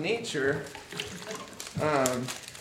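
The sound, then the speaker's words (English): Water is poured into a container during a children's Skittles activity, making a steady splashing trickle under the voices of children and an adult talking. “Pour that water into there.”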